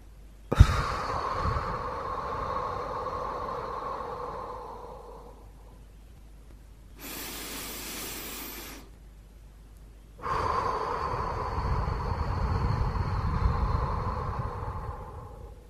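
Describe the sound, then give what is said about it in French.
Slow, deep breaths drawn in through the nose and let out through the mouth: a few long, airy breath sounds lasting several seconds each, separated by short pauses, with no talk. “je choisis de prendre une grande inspiration en gonflant le ventre. J'inspire par le nez et j'expire par la bouche.”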